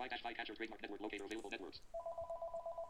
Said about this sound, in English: And excuse the phone ringing.